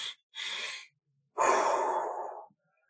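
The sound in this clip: A person demonstrates a breathing technique: two short, airy inhales in quick succession followed by one longer, audible exhale, breathy and close with no speech.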